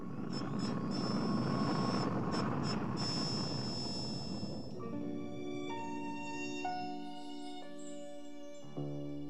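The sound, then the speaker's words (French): A fictional spaceship landing on an alien planet: a loud, steady roar laced with high whining tones for about five seconds, then giving way to sustained musical chords. “Le vaisseau spatial de Paragus atterrit sur Vegeta.”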